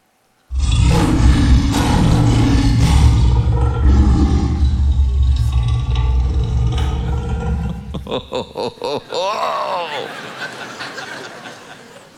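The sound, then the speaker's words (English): A lion roars with a loud, deep, sustained rumble lasting several seconds, then breaks into a run of short, rhythmic grunts that fade out. “This is the roar of a lion.”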